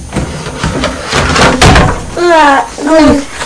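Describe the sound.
A child opens a cupboard door indoors, giving a series of knocks, bumps and rattles. The child's voice then makes two short, high vocal sounds.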